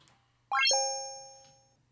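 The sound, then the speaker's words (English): Computer chime sounding when a contest official logs a participant out of the system at the end of a timed braille contest: two bright tones in quick succession that ring on and fade slowly, alone over a faint low hum. “That's the sound of someone taking you out of the system on their computer.”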